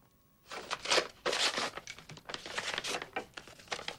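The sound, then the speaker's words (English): A paper letter is crumpled into a ball and ripped. After a quiet start, faint, dense crinkling and crackling sets in and continues in many irregular bursts to the end. “Deirdre hangs her head and screws the letter up into a ball. She unravels it and rips it.”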